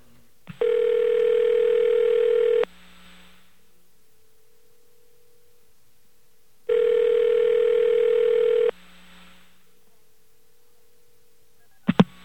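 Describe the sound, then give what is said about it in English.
Ringing on a call to a payphone line: two long buzzing rings separated by a silent pause, then a sharp click as a computer picks up at the end. “You should hear a few rings and a computer pickup.”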